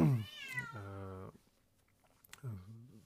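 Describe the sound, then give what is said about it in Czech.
A cat outdoors meows to be let back home, giving a few drawn-out, wavering meows separated by short pauses, moderately loud with no talk over them. “Vy určitě slyšíte, jak tady mňouká kočka, která chce domů”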